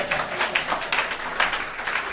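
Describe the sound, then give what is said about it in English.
Church audience applauding, a brief steady patter of hand claps that keeps an even level throughout. “Let's give our brother a round of applause.”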